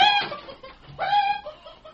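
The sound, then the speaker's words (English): Hen squawking: two loud, harsh harmonic squawks, each trailing into a few shorter clucking notes, with no voices. “Oh, get out of here, you squawking old hen.”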